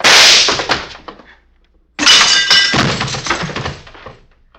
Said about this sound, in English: You shot the back of Jesse's head off, Bob.